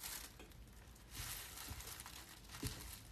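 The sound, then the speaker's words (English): Food packaging crinkles and crumples as someone struggles to tear it apart by hand, making faint steady rustling with a few sharper crunches. “I'm about to break a nail. I'm trying to tear this apart.”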